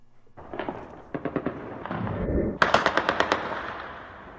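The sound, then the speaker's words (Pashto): Celebratory gunfire from light and heavy weapons in Kabul after the Afghan national cricket team beat Zimbabwe. Loud bursts of rapid shots come in a few volleys with short gaps, ending in a dense, fast run of cracks. “د سپکو او درنو وسلو دا ډزې په 40 ورځو او 50 ورځو لوبو کې د زیمبابوې په وړاندې د افغانستان د کرکټ ملي ټیم د بریا له امله د خوشحالۍ په دود تېره شپه په کابل کې وشوې”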